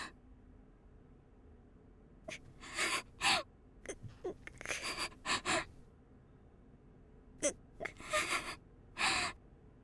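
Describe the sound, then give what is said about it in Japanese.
Heavy breathing through the nose comes in a series of sharp, noisy bursts, some single and some in quick clusters, with quiet gaps between. “鼻息が、先輩の呼吸が嫌だと思ったこと初めてです。呼吸を止めてほしいです。”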